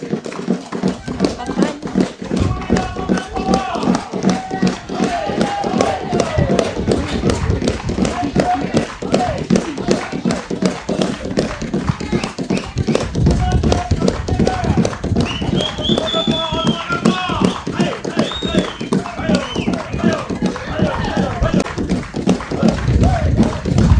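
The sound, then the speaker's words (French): An audience claps hands in a steady, even rhythm throughout, the regular beats running on without pause while voices carry on over them. “On frappe les mains, s'il vous plaît.”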